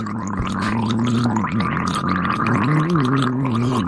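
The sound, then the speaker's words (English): Gargling of very hot tea by a person with a sore throat, a wet, bubbling throat tone with a wobbling, warbling pitch that runs without a break for about four seconds. “Tea? Tea. Gargle it. It's very hot. Good. Well, that's what you need. It feels good when you gargle.”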